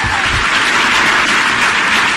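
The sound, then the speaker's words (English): Audience applause fills the whole moment, a dense, steady wash of many hands clapping at a constant loud level, with no talking over it. “those of you watching at home may wonder why this is being applauded.”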